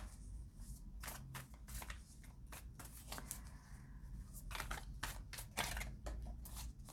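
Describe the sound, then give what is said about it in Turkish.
Tarot cards being shuffled and picked from a deck: a quiet run of many brisk riffling snaps and soft sliding flicks, irregular in rhythm, with no talk. “Bakalım kart seçeceğim.”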